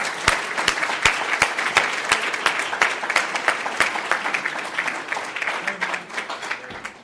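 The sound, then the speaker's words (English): Dense, loud applause from a City Club audience welcoming a state Republican party chairman as the speaker, with rapid sustained clapping that tapers off toward the end. “So I need you to join me in a big, rousing City Club welcome for our speaker, the Illinois Republican Chairman, Tim Schneider.”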